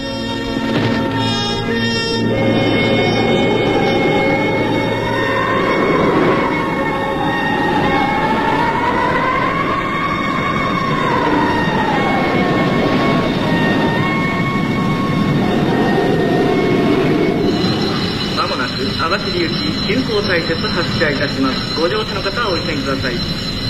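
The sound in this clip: A train running: a continuous loud rumble and rattle of wheels on track throughout, with a high, wavering squeal that rises and falls through the middle section before the steady noise carries on.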